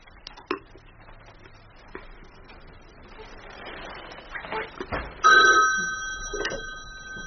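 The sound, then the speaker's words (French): A telephone rings at a retirement home's switchboard, a bright electronic ring sounding near the end after faint murmured voices and a few soft clicks. “Ça va sonner, il va appeler. Il a appelé.”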